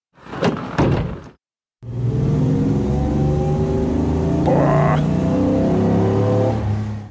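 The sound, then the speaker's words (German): The starter motor of an old car cranks with a strained sound for about a second. After a brief silence, an engine drones steadily and loudly until the end. “Also das Anlassergeräusch hört sich an wie aus den 50ern.”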